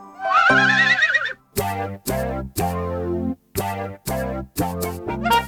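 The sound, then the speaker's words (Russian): A horse whinnies with a loud, wavering, high neigh at the start. A series of short, loud, rhythmic bursts follows. “Я люблю свою лошадку, причешу ей шерстку гладко, гребешком приглажу хвостик и верхом поеду в гости.”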